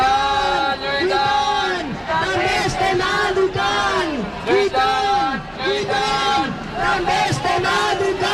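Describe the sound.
Protesters fill Catalan streets during an education strike at the start of the school year, a large crowd chanting loud, rhythmic slogans in repeated swooping shouts over a constant hubbub.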